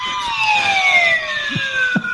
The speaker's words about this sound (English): That's the Wheel of Fortune sound, apparently, even though that's not the Wheel of Fortune sound that I know.